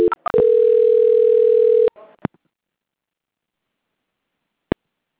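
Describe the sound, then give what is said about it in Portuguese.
Telephone line tone during a call transfer: a few quick beeps lead into a steady, held tone of about a second and a half, which ends in clicks and then near silence. “Voltou a ligação, eu vou transferir de novo, tá? Não desliga, não.”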